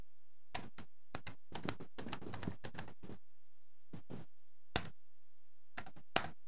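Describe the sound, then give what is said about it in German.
Typing on a computer keyboard, with the caps lock key pressed by mistake instead of shift: quiet, sharp key clicks in quick bursts separated by short pauses. “Sie wollen nur die Umschalttaste drücken, drücken aber aus Versehen die Feststelltaste und dann passiert nämlich Folgendes.”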